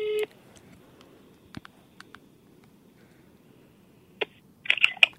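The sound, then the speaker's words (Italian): Phone call being dialled, with short electronic beeps and clicks: a brief tone at the start, a few scattered taps, then a quick cluster of bright beeps at the end. “Intanto proviamo a chiamarla allora.”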